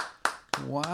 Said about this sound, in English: That's the sound of one man clapping.